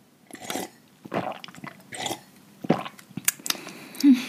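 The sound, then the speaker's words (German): Drinking kidney tea mixed with apple juice: several separate gulps and swallows with small wet mouth sounds and clicks, fairly quiet and spaced out, with no talking. “Und deswegen als allererstes trinken wir, sonst vergessen wir es nämlich. Ich habe einen Nierentee mit Apfelsaft, weil ohne Apfelsaft kann man das nicht trinken.”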